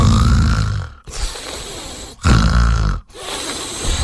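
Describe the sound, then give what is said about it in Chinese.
A voice imitating the loud snoring of a sleeping woman: a few long, rasping, throaty snores, each separated by a short pause, deep and rough and heard alone. “紧接着这女的就开始打呼噜。”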